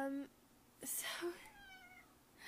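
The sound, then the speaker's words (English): Faint meowing from a house cat, a few drawn-out harmonic meows spread across the moment, quiet and somewhat soft against low background noise. “Sorry, that's my cat if you can hear it.”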